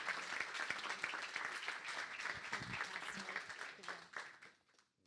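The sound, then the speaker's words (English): A church audience applauds to welcome two speakers to the platform. The clapping stays full and steady, then thins out and fades over the last second. “So would you put your hands together and welcome to the platform, Don and Sandy Godwin.”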